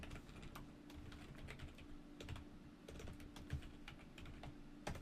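Faint rapid keystrokes on a computer keyboard as a stock ticker symbol is typed into a spreadsheet cell, many soft irregular clicks over a low steady hum.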